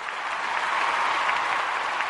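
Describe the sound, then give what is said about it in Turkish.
Dense, continuous applause from a crowd in stadium stands, a loud, even wash of many hands clapping with no pauses. “sana tribün çok alkışı gönderiyorum.”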